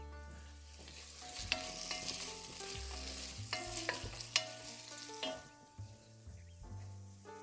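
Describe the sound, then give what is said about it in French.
Onions sweating in a pan sizzle softly and steadily while being stirred until confit. The quiet frying hiss runs throughout, broken by occasional sharp clinks and scrapes of a utensil against the pan. “Mes oignons sont toujours en train de suer.”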